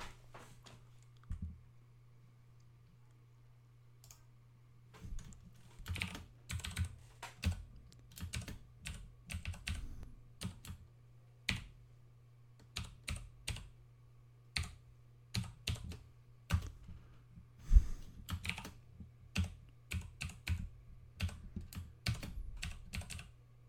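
Typing on a computer keyboard while entering a Gmail address to log into Google: bursts of rapid key clicks broken by short pauses, over a steady low hum.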